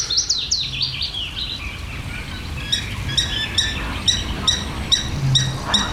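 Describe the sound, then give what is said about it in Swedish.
Songbird song from a willow warbler and a garden warbler: a bright, descending warbled phrase opens, then a run of high, repeated chirping notes follows steadily over a low background rumble. “Lövsångaren kör ju för fullt. Och sen är det en trädgårdssångare som även har vaknat här.”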